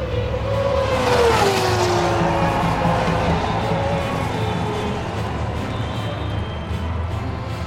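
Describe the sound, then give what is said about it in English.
Race cars flash by in seventh gear on the fastest part of a circuit at Montefino. One loud engine passes with a falling pitch, then a sustained, roaring engine noise continues. “Alessio Bartoli as racers flash by in seventh gear, entering the fastest part of the circuit.”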